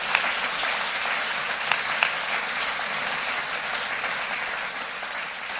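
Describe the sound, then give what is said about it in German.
Audience applause greets two members of a visiting mission team at a gathering: dense, steady clapping at a fairly even level throughout, with a few sharper individual claps standing out. “Und ich glaube, wir dürfen den beiden erstmal einen riesen fetten Applaus geben, dass ihr da seid.”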